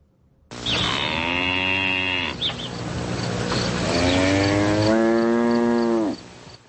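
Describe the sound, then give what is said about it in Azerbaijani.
A cow grazing in a meadow gives two long, loud, drawn-out moos, separated by a short breathy gap. “Çəmənlikdə otlaya-otlaya ara bir moğuldayan inək görəndə adamda hansı hisslər oyanır?”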